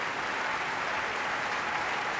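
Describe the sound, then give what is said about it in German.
Dense, steady applause from an opera premiere audience honoring an Australian composer, a continuous even wash of many hands clapping with no breaks. “Und er bedankt sich bei allen Beteiligten, wird gefeiert, umjubelt vom Publikum.”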